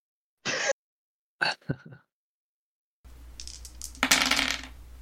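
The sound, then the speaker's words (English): Three dice rolled to settle turn order in a tabletop draft game, heard as a few short, sharp clattering rattles, followed by a noisier stretch of mixed sound. “I'll roll them dice”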